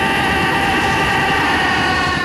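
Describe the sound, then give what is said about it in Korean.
A train approaches on railway tracks, a loud, steady rumbling roar that holds without break from start to end, with no voices. “철로 위 달려오는 기차를 정면으로 마주한 중년 남성 영호.”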